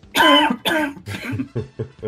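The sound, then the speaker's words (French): Coughing fit with two loud, harsh coughs followed by a few weaker, lower hacks, heard on its own. “J'entends tousser. Qui est-ce?”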